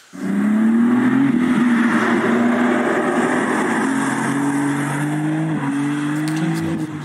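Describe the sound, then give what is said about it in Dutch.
Tuned, limited-run BMW M4-based car with an inline-six engine and manual gearbox revving: a loud, sustained, buzzy engine note whose pitch climbs gradually, dips briefly near the end, then keeps droning. “Ja, het klinkt wel goed, hè? Ja, dus 6 in lijn. Niet naar kijken, alleen maar luisteren.”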